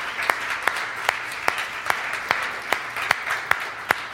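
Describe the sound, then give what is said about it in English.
A church audience claps hands together, sending about ten sharp, evenly spaced claps over a dense wash of applause. The sound is steady, rhythmic and moderately loud throughout. “Come on, let's give the Lord a hand clap.”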